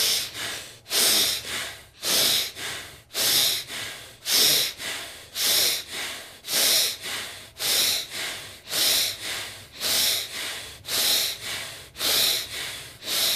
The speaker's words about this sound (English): We'll do 15 nasal pump breaths here. So we'll start in 3, 2, 1, let's go.